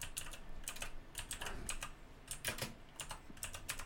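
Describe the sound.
Quick, uneven bursts of keystrokes on a computer keyboard as someone types an online search, soft clacking with brief pauses between runs of keys.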